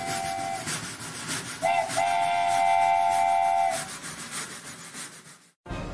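A moving train sounds its steam whistle: a short blast, then a long, loud, steady one over the continuous rumble and rattle of the running train, before an abrupt cut.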